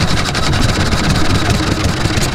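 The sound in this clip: An Olympia 3.5-horsepower engine runs steadily. Its dense, continuous mechanical drone holds an even level without breaks, and no voices are present.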